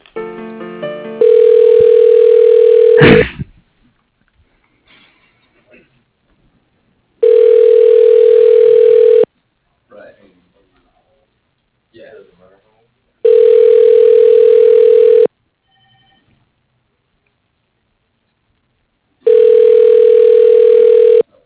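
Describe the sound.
Ringback tone of a telephone call being transferred to a voicemail line: four steady, loud two-second tone bursts separated by longer silences, with a sharp click after the first ring and faint clicks in the gaps.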